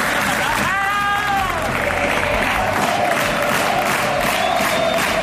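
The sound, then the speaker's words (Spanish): A football crowd at the Nuevo Vivero stadium celebrates Club Deportivo Badajoz's win over Cartagena, a dense, loud roar of voices and clapping held steady throughout, with a shouted cry rising above it early on. “La alegría del público del Nuevo Vivero después de la victoria del Club Deportivo Badajoz sobre el Cartagena.”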